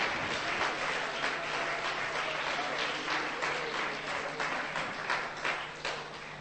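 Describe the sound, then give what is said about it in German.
An audience claps hands in praise during a church service, a sustained dense mass of applause running through the whole clip and easing slightly near the end. “You can get a lot of hand praise as you see. Lass mal die Hände klatschen für den Herrn.”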